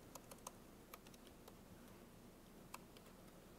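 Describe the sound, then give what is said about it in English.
Keys clatter faintly as a file system name is typed on a computer keyboard, a few sharp, uneven taps with pauses between them over a low background hiss. “So again, I could go ahead and type in a name here, STG 306 single AZ.”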